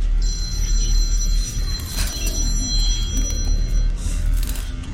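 A telephone rings with an unknown caller at 3 a.m., giving high, thin electronic ringing tones over a steady low rumble. The ringing stops shortly before the end.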